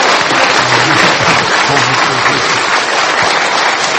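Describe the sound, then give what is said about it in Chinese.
A church audience claps in a loud burst of thick, rapid applause that holds at an even level for about four seconds. “我们感恩，我们再次用掌声来感谢他在我们中间，好吗？”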